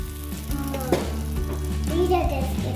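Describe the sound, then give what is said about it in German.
Roasted almonds and hot butter sizzle steadily as a spoon stirs them into a sticky mass, a continuous fizzing hiss with soft scraping throughout, with no talk. “Und dann verrühre ich das schön mit einem Löffel oder mit einem Teigschaber zum Beispiel, dass es eine schöne Masse gibt, so eine richtig klebrige.”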